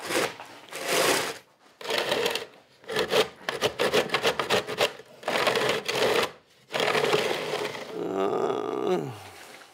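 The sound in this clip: Profile template test-pulled along a shaft, giving rough, rasping scrapes in a series of strokes of varying length separated by short pauses. It ends with a rattling, creaking drag.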